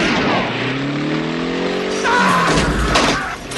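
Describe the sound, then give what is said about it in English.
A gas company truck's engine roars and climbs in pitch as it accelerates toward an exit gate, then a louder, harsher burst of noise breaks in near the end before fading slightly. “The truck plows straight through Tony, taking the gate with it. He said it looked like a regular gas company truck.”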